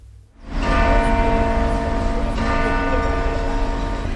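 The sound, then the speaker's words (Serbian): Cathedral church bells toll to mark the arrival of a procession bearing the remains of royal family members. After a brief quiet moment the ringing starts loud and stays dense and sustained, with overlapping metallic tones that never stop. “Zvona Saborne crkve označila su dolazak kolone sa zemnim ostacima članova kraljevske porodice.”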